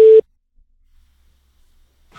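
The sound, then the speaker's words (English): A single short electronic beep sounds as a steady tone lasting a fraction of a second, then near-silence follows. “You have 3 seconds at the count of the beep.”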